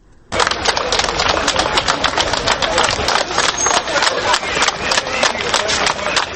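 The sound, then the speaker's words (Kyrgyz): Clapping and stomping from a crowd of about 200 protesters at a silent street protest, a dense, steady patter of sharp hand claps with low thuds underneath, starting abruptly and continuing loud throughout. “Минскиде өкмөттүн тыюу салганына карабастан кечээ шаршембиде 200 адам ушинтип кол чаап жана жер тепкилеп турушту.”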